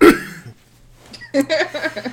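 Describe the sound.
Throat clearing by a man: one short, rough burst at the very start, followed by a brief pause and then his speaking voice.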